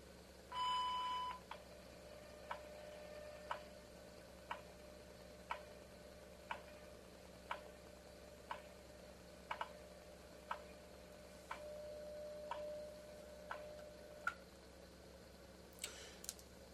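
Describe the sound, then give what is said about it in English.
Time signal tones and ticks: a brief steady beep opens, then faint, sharp ticks fall evenly once per second against a quiet hiss, with no voices. “At the tone, 22 hours, 17 minutes, coordinated universal time.”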